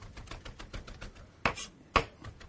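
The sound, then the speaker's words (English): Knife chopping food into a fine mince: a rapid run of light, even taps, then two sharper, louder strikes near the end. “You can see how you've got a beautiful mince. And then if you want to run your knife through again.”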